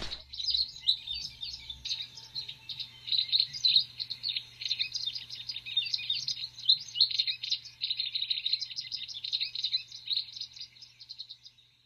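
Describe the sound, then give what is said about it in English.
A wagtail chirrups in quick, high, twittering calls that repeat almost without pause, fairly faint above a low steady hum. “as they fly up to sit on a fence or to sit on a bush or on here, the groins, they chirrup. They chirrup. So sometimes you hear the chirrup and you think, and you have to look around then to find the wagtail.”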